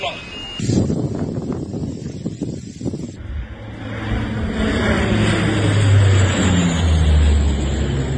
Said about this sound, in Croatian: To su gliseri policijski, kupaju ljude šta skakali u more.